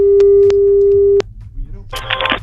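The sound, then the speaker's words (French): A steady electronic ringback tone from an outgoing telephone call on a radio call-in segment sounds once, holding a single even pitch for just over a second before cutting off. A brief noisy burst follows. “Allons-y, ça sonne.”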